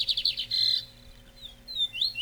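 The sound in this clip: A Belgian canary sings in short, high-pitched bursts of rapid trilled chirps and bright whistled notes, broken by brief pauses. No one speaks.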